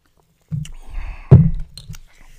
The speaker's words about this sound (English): hold up, let me take a sip.